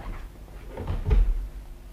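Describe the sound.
A house door is opened for visitors, a single brief muffled clunk near the middle of a quiet stretch, with no voices.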